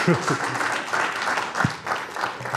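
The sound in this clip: An audience applauds to welcome a rabbi to an audience, a steady wash of clapping throughout with voices calling out over it.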